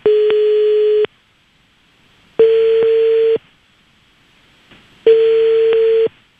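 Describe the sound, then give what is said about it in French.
The ringback tone of an outgoing telephone call plays three steady, mid-pitched beeps of about one second each, separated by short silences, loud and alone. “Allez, c'est parti, on fait sonner chez Anthony.”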